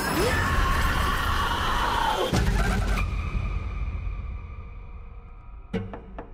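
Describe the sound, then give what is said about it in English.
Dense, noisy sound mix from the trailer for the film Mother!, a roaring wash cut off abruptly partway through, followed by a sustained tone that fades and a couple of sharp hits near the end. “All right, so that was the trailer for the film Mother, with an exclamation point.”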